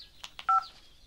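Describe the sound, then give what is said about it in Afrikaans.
A telephone gives one very short, bright electronic beep with two tones, among faint soft rustles and no talking. “Wie bel my nou?”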